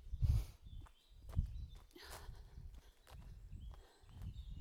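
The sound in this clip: Faint footsteps of someone walking after a run on a hot day, a few slow, evenly spaced steps over quiet background noise.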